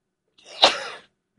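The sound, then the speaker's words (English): A single sneeze from a person reading community announcements: a short breathy intake, then a sharp burst that trails off into a brief hiss, heard alone. “Sometimes you just got to sneeze.”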